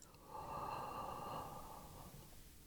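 A deep breath drawn in during a guided relaxation exercise: one long, steady inhalation with a soft airy hiss that swells quickly, holds for well over a second, then eases away.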